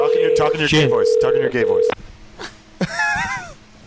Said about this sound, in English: Okay, here we go. We're dialing.